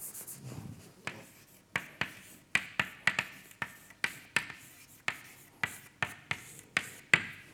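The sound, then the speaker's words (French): Writing on a board makes a long run of sharp, quick taps and short scratches in an even, steady rhythm. The strokes are crisp and fairly quiet, with no voices. “ok, je vais écrire x. X à l'instant t.”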